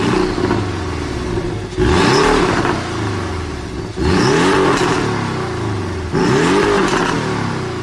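A Porsche 718 sports car's four-cylinder turbo engine revs hard in three loud, separate surges spaced about two seconds apart. Each burst climbs sharply and then settles back to a gurgling idle, with no voices.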